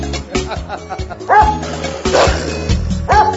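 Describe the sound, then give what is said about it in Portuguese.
Dog barking over a thumping music beat: a few short, high yipping barks recur among heavy rhythmic bass hits. “Meu cachorro me sorriu latindo.”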